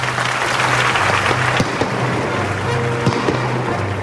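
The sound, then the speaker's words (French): Applause rises at the royal court of Versailles after a theatre performance in 1664: a dense, steady clatter of many hands clapping throughout, with a faint low hum beneath and no voices. “Va-t-il applaudir? C'est fait.”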